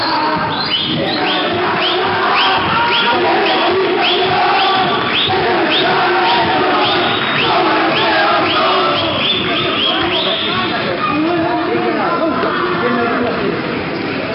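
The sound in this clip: A loud, dense crowd celebrates with Fénix, shouting and chanting continuously, with many overlapping voices throughout.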